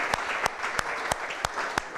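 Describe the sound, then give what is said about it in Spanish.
Audience applause for two brothers, with continuous clapping punctuated by six sharp, evenly spaced accented claps in a steady rhythm. “Bueno, vamos a parar a los dos y darle un aplauso a ellos.”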